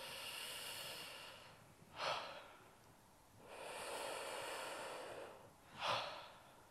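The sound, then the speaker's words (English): Slow, deep breaths taken by a group during a breathing exercise focused on the ribs and middle chest. Two long, soft, hissy breath cycles, each ending in a stronger, breathy exhale; faint and without talk. “So everyone just breathe into that space, couple of breaths.”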